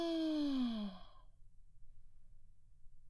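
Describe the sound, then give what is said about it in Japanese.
One deep, voiced exhale during a guided breathing exercise, loud at first and sliding down in pitch before trailing off into faint, quiet breath noise. “息を吐いて、もう一回息を吸って”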